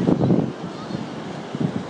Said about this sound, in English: We're now walking along the promenade in Lahinch. This is the Atlantic Ocean.